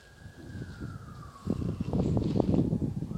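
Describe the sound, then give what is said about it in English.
Police car siren passing in the background, a single faint wailing tone that slides gradually lower, while louder, irregular rumbling noise starts halfway through. “I'm going to pause this for a minute because a police car is coming through the background.”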